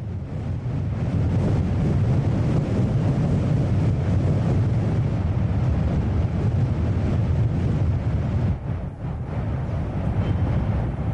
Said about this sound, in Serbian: ulazimo u staru romansku crkvu Notre Dame de la Major. I unutra je vetar. Snimam, vetar u vratima, u pukotinama